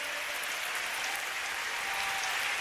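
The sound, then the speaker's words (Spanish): Sustained applause from a worship gathering, a continuous hiss of many hands clapping at a steady level, without speech on top. “Dale más fuerte ese aplauso.”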